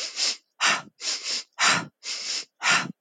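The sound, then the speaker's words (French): Connected breathwork breathing: six strong breaths alternate inhale and exhale with brief gaps, loud and alone. “du breathwork que je pratique, où on fait une inspiration, une expire et on connecte. Donc, je, je montre.”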